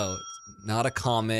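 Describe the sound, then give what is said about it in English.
A newly bought bell rings, its steady high tone sustaining and fading briefly before people start talking over it. “You know what that sound was, by the way? Your new bell? My new freaking bell.”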